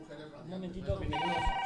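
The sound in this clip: An incoming call rings at a community radio gathering in Madrid: a steady electronic ring tone enters partway through, over people talking.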